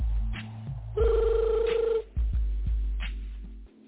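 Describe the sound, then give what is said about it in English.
A telephone rings aboard a plane in flight, a single sustained, warbling bell tone lasting about a second, set between low rumbling and followed by a few dull thumps. “Oh, boy, now your phone ringing.”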